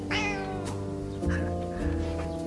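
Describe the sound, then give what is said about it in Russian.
A kitten in a box meows a few times in clear, high, slightly wavering cries, with a steady low background hum underneath. “Вы что, кота решили завести?”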